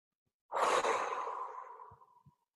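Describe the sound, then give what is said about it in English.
A deep, slow breath from a gratitude breathing exercise. It starts abruptly as a loud, airy sigh-like exhale, then fades gradually over about two seconds, with a couple of faint soft puffs at the end. No talking. “So that was four complete breaths, you know, eight in out, in out, in out.”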